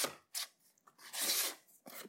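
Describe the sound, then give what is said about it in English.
A spatula scrapes around a mixing bowl of batter for a gluten-free coconut cake, in a few rough, irregular strokes that come in short bursts with brief pauses, the longest near the middle. “So let's scrape the bowl here.”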